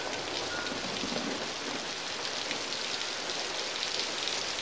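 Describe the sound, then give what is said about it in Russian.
Steady rain falls as someone heads out into it, a loud, continuous hiss of drops with no pauses and no voices. “берет зонтик и уходит под дождь на улицу”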